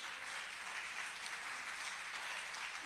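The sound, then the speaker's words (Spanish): Faint applause from a church audience clapping for the Lord, a soft, steady patter of many hands that keeps an even level throughout without any clear voices. “Dale un aplauso fuerte al Señor.”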